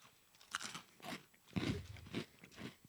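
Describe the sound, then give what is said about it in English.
Crunching of giant jumbo Fruit Loops cereal eaten as a snack: a few crisp, brittle bites with chewing between them, quiet and alone without talk. “So this is how I enjoy Fruit Loops the best, there as a little snack. Yeah. And now they're just a little bit bigger. Hopefully they taste just like Fruit Loops.”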